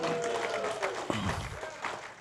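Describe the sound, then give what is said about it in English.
An audience applauds at the mention of a couple reaching 35 years together. Dense clapping runs throughout with voices mixed in. “Anytime you say the years, everybody applauds. It's like, wow, you made it.”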